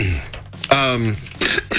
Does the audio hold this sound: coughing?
yes